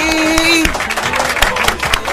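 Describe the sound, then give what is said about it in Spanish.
Applause on a Friday: dense crowd clapping with scattered sharper claps, opened by a held, voice-like cheering tone that stops abruptly. “Los aplausos se los lleva todo este día viernes.”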